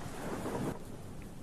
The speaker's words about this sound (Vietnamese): Trời chẳng hiểu sao bắt đầu đổ mưa, sấm sét cứ đùng đùng đoàng đoàng.